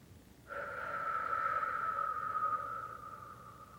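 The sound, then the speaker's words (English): A breathing exercise demonstration: one long, steady breath pushed out through the mouth, with a faint whistling tone. It swells quickly, holds for about three seconds and then fades, with no voices. “When you breathe in, try to breathe in through your nose. And when you breathe out, try to breathe out your mouth like this.”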